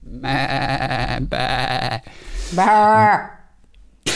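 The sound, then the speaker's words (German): A person's voice imitates sheep bleating, producing a few long, loud, drawn-out bleats, the last one wavering in pitch. “Eine Herde hatte sich in Sichtweite von unserem Haus versammelt und schon morgens hörten wir vom Balkon das immerwährende”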